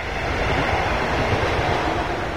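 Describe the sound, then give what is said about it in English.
Trains rushing along an abandoned green space, a former rail yard in southern Berlin, producing a loud, steady rumbling roar that continues without a break. “Today, trains rush along two sides of a stretch of abandoned green space in the southern part of the city.”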